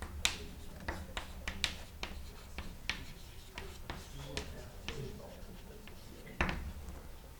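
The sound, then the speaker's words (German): Chalk taps and scratches on a lecture-hall blackboard while an equation is written, many short, sharp, faint clicks spread irregularly across the stretch. “aber dazu muss ich erst die Tafel wischen. Also, ich schreibe mal eben hier auf, Variationsrechnung.”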